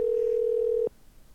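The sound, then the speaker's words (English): A telephone ringback tone on an outgoing call that nobody answers. One steady, clear, low-pitched tone lasts just under a second and then cuts off, with no talk. “I can't get nobody. Motherfuckers just ain't answering the phone.”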